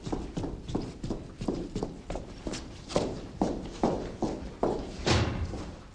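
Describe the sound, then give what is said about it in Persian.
Quick, even footsteps of a woman with a bag in hand hurrying down a flight of stairs at night: a steady, rapid run of firm thuds with no talk. “سیما کیف به دست با عجله از پله ها پایین می آید.”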